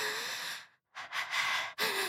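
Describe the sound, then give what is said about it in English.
Heavy, out-of-breath breathing: a few loud, ragged breaths, including one long exhale, broken by a brief silent pause, with no talk. “You okay? You look a little out of breath.”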